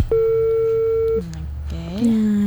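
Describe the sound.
A telephone tone after a call is cut off: a steady mid-pitched tone holds for about a second, then gives way to lower, wavering tonal sounds.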